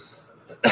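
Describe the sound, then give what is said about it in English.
A single harsh, loud cough to clear the throat, coming abruptly after a moment of faint breathing and cut off sharply at the end. “Excuse me, didn't mean to just fucking hack in your ear like that.”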